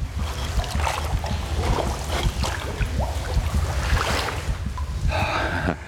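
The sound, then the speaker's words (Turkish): Water splashing in a cave river in a video game: continuous sloshing and churning with scattered bursts of spray that stay at a steady, fairly loud level. “Mağarada ilerlerken nehirle tekrar karşılaşıyorum. Oh! Sudayım.”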